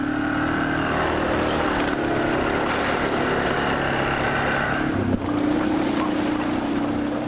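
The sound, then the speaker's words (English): An ATV engine drones steadily as the vehicle rides through a muddy, half-frozen wilderness trail, a continuous rough rumble with wind noise over it. “more ATVs could lead to an increased demand for still more trails. And in the years ahead, that can make this sound more common.”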